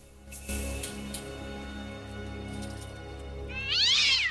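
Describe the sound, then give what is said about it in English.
A cat meows once, a loud drawn-out cry near the end, while climbing a mesh fence, over a steady low hum with a few faint clicks and knocks before it. “The cat begins to climb the mesh fence.”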